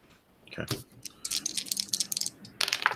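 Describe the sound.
Dice being rolled for a sanity roll in a tabletop game: a quick run of light clattering clicks and rattles, pausing briefly, then a final flurry of clicks.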